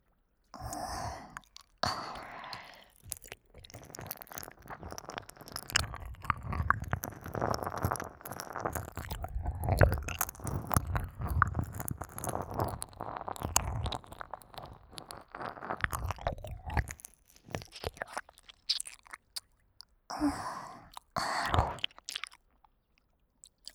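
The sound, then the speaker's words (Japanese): Wet tongue licking on an ear in ASMR style: continuous soft smacking and slurping mouth sounds with breathy sighs, quiet and close, easing off before a short final burst. “舌先でお耳の感触を味わうだけで頭クラクラしてボーってしてきちゃう。”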